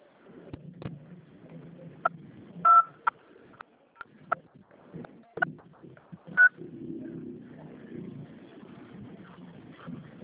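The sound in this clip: Telephone tones and clicks while a phone call is transferred: scattered short clicks and blips with two brief, brighter beeps, over faint low background noise.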